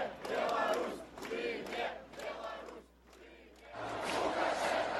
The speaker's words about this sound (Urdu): یہ وہ دن تھا جب بیلاروس کو آواز ملی، وہ نعرے لگا رہے ہیں لوکاشینکو کو جیل میں بند کرو۔